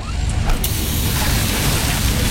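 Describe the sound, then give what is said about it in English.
A hydraulic hose bursts with a sharp rush, then a loud, steady hiss of escaping fluid and pressure that continues to the end. “Oh, busted hose. This will cost me time and money, and take forever to get fixed.”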